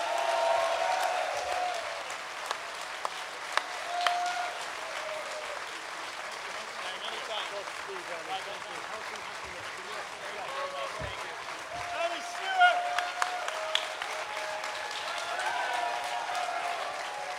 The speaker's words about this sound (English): Ladies and gentlemen, can we hear it for the one and only, the soon-to-be GM of your US men's national team, Mr. Earnie Stewart.